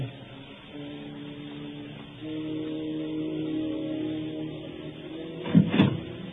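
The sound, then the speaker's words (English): A brief door sound at the front door of a home: a short cluster of loud knocks or rattles near the end, over steady low sustained tones. “Sir, there's the front door. Yes, I heard it.”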